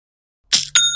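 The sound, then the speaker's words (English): Shopify sale notification chime: two quick, bright metallic strikes, the second ringing on in clear, sustained high tones, heard alone. “You hear that sound? You should know that sound by now, Young and Profiters, but in case you don't, that's the sound of another sale on Shopify”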